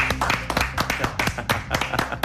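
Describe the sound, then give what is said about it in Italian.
Audience applause made of many sharp, distinct hand claps in a loose, uneven patter, moderately loud and fairly steady across the couple of seconds. “Applauso.”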